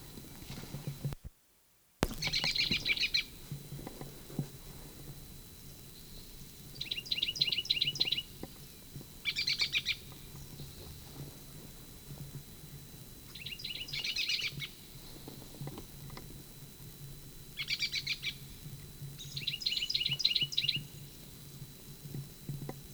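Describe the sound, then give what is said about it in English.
Bird calls in several short bursts of high, rapid chirps, spaced irregularly over a low, rumbling background, fairly faint overall. “Evidently the Blomqvist bird.”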